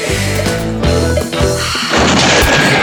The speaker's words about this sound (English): Lean in, breathe out slowly, and squeeze the trigger.